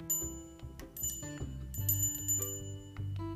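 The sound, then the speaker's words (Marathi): A hand bell rings repeatedly at a Ganesh festival aarti. Many bright, high metallic strikes run in an uneven rhythm, each leaving a sustained ring. “हातातली घंटा वाजवली”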